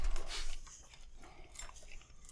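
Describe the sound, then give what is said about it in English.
Crunchy chewing of M&M's candies: a run of irregular, moist crunches and bites, loud at first and then continuing more softly, with no talk. “He's chewing on M&M's. Give him a second.”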